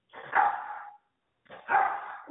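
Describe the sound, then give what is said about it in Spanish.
A small dog barks twice, two short, sharp yaps separated by a brief pause, fairly quiet and with no talking over them. “Ay, el perrito está ladrando.”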